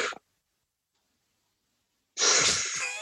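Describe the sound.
A voice imitates the wheezy, heavy breathing of a baseball player after COVID. A short breathy burst is followed by silence, then a loud, rasping, drawn-out exhale.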